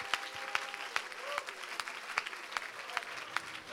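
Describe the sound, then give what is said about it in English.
Hands clapping in praise during a worship service: a steady series of sharp, separate claps at an even pace, like a small group clapping along, moderately loud with a faint murmur underneath. “Put your hands together tonight and give them one more hand clap of praise.”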